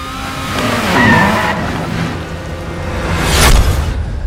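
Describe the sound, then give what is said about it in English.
Racing cars from a popular video game roar and rev, with a high tire squeal early on and another surge of engine noise and skidding toward the end. “So this is what popular video games sound like.”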